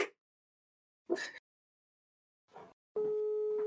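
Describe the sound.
A telephone call being placed: a few brief bursts of noise separated by silence, then a steady, unbroken dialling tone that holds to the end.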